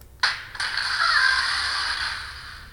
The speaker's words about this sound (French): bruit des portes